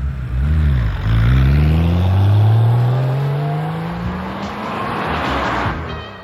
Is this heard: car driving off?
yes